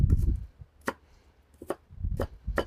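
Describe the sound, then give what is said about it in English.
A knife slicing a fresh onion: several sharp, crisp cuts land at an uneven pace, each a short bright snap over duller knocks, with no talking. “I might just get a little slice of onion here. Not a giant onion guy, but fresh onion's okay.”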